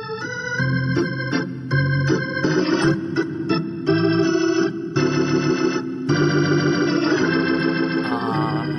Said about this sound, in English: Now that's the sound of an Atlanta Braves game.